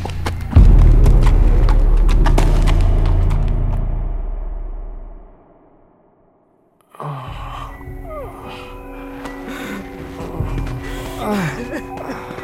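Hooves of a ridden horse clip-clop on a road in a steady, loud rhythm, then fade away into silence.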